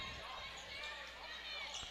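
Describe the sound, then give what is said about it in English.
A basketball is dribbled on the court during a women's game, giving a few dull bounces under constant crowd noise and commentary. “Davidson dribbles between the circles. Now goes towards the paint.”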